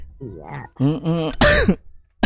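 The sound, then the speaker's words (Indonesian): A cough from a caller with a sore nose during hazy weather. Short voiced sounds lead into a harsh, noisy burst, and a second brief, sharp burst comes at the end. “Aduh batuk ya, sama.”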